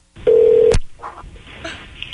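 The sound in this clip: Telephone being dialed: a loud, steady tone held for about half a second ends in a sharp click, followed by a few shorter, fainter dialing beeps.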